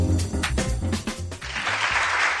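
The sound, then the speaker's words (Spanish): Crowd applause swells up after a short stretch of speech and continues as dense, bright clapping to the end. “Y este aplauso, porque lo hemos dicho, es la noticia del día.”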